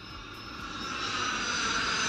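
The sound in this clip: An airplane passes overhead, its engine drone swelling steadily louder into a sustained roar with a bright whining edge.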